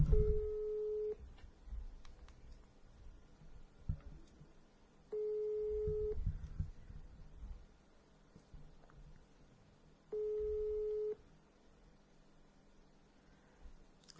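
A telephone busy signal sounds as three separate bursts of a steady beeping tone, each about a second long and spaced several seconds apart, with faint low rumbling and rustling in the gaps.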